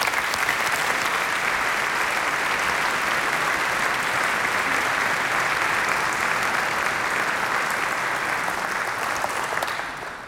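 Audience applause welcoming the jury president of a competition onstage: dense, steady clapping from many hands, sustained evenly for about ten seconds and thinning slightly at the very end.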